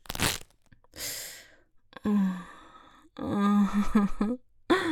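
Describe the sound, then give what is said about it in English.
Fishnet stockings tearing in two short, rough bursts of ripping fabric, followed by breathy vocal sighs and moans. “Now tear a hole in these fishnet stockings. I want to hear my favorite sound in the whole world.”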